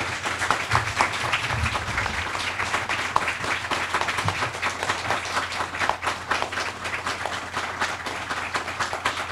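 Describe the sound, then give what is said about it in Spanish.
Audience applause at a municipal conference in Maldonado, sustained dense clapping from many hands at a steady even level for the whole stretch, with no speech over it. “les pido un gran aplauso”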